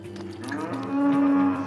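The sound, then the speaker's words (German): A calf moos during a difficult birth in which it lies in the wrong position: one drawn-out, low bovine moo that swells slightly louder toward its end. “Das Kalb liegt falsch. Wollen Sie es sterben lassen?”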